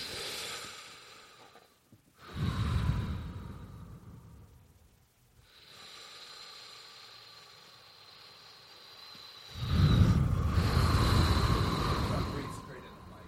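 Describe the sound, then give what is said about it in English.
Several people taking deep breaths together: a few long, loud rushes of air, each swelling and fading over a few seconds, with quiet gaps between them. “I bet you if we take four deep breaths together, how just of a better place we'll be in together.”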